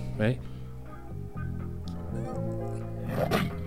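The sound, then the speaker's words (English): A large dog, a Rottweiler or cane corso, barks twice, with short rough bursts near the start and end, while people talk over and between them. “That's a dog. Is that like somebody's or something? That's a Rottweiler or a cane corso.”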